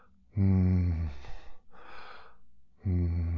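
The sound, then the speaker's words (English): A person imitates a dying dog's labored breathing on a vet's exam-room floor. Two loud, voiced, groaning breaths are separated by a harsher, noisier rasping breath. “I can feel he's laboring to breathe. And as he breathes, you could just hear him like,”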